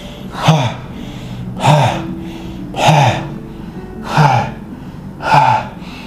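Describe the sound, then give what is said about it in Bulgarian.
Bhastrika yoga breathing: five forceful, evenly spaced breaths, each a loud airy whoosh rising and falling, repeated at a steady rhythm over a low, faint hum. “Хайде още един цикъл да повториме. Бастрика. Точно така.”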